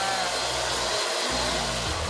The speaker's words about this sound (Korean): 녀석이 좋아하는 화장실에서 겨우겨우 드라이기로 말려봅니다.